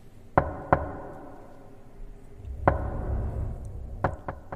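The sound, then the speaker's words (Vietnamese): Sharp knocks on a door: two quick raps, a pause, a single rap, then three fast knocks at the end, each crisp and fairly loud against quiet background. “tự nhiên lại có tiếng gõ cửa vang lên.”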